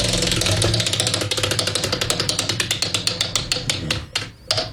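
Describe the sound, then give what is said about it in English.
A spinning prize wheel clatters as its pointer flicks over the pegs, making a loud run of rapid ticks that spread gradually farther apart as the wheel slows, before fading out at the end. “She's spinning the wheel for that.”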